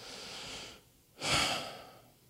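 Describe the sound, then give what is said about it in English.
A deep breath in, a single soft, breathy rush of air that swells and then fades, after a quieter stretch of breathing. “Do it with me, just take in a deep breath.”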